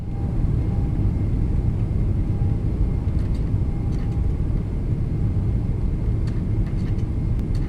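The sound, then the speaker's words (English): Spacecraft engines throttling up for orbit escape produce a steady, loud, low roar that holds unbroken throughout, with faint high ticks scattered above it and no voices. “Tighten those seatbelts, guys. One more time. Going to throttle up.”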